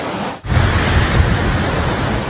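Floodwater rushes over a check dam on the Khlong Takao stream as it flows toward a reservoir. It makes a dense, steady roar across the whole range, broken only by a brief dip near the start before resuming at full strength.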